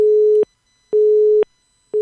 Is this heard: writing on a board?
no